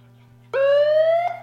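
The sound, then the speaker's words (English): Electronic siren set off by pressing a button: one loud wailing tone starts abruptly, climbs gently in pitch for under a second, then cuts off, over a faint steady hum. “it's a siren, all right”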